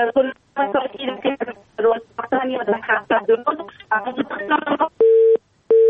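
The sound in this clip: A busy tone follows a phone call to a radio show that has been cut off. A voice talks over the line first, then two steady, evenly pitched beeps sound on their own.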